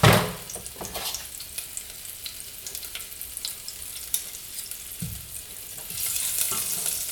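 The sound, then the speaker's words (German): Margarine melting in a cooking pot gives off a soft, steady sizzle, with scattered light scrapes and clinks of stirring, growing slightly louder near the end. “So, die Margarine lösen wir jetzt schön auf in dem Topf.”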